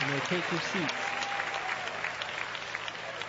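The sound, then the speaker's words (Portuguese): A church audience claps their hands in praise during a worship service: dense, steady applause runs throughout at an even level, with a voice heard over the clapping. “Podem louvar a Deus com palmas.”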